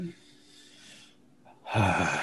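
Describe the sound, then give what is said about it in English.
A woman grunts under her breath: a short, low, throaty burst near the end, after a stretch of quiet breathy noise. “She grunts under her breath and rolls her eyes.”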